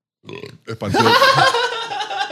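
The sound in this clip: A person lets out a long, loud burp: a short throaty sound and a brief catch, then a sustained, rumbling belch that carries on for about a second and a half and slowly trails off.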